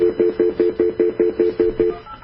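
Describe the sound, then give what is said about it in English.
Telephone speed dial tones: a rapid, evenly spaced run of many short, identical mid-pitched beeps, clear and alone, followed by a brief pause and a faint tone at the end. “Let's see if I have her number of speed dial. See if I can call her.”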